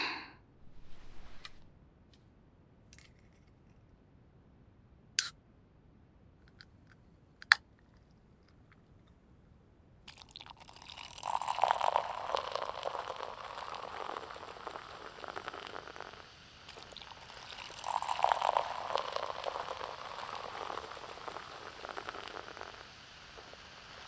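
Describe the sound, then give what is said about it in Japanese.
Cola being poured into a glass: a few faint clicks, then a soft, steady hiss of pouring and fizzing that swells twice before settling. “先生もコーラ飲むでしょ？入れとくね。”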